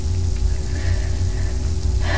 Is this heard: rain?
yes

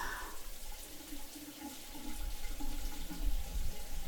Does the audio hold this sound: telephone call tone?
no

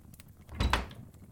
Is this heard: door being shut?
yes

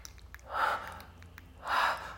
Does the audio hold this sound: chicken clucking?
no

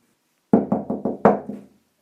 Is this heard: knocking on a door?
yes

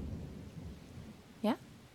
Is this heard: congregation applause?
no

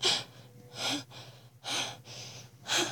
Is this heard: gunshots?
no

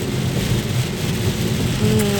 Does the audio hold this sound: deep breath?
no

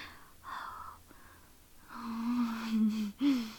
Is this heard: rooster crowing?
no

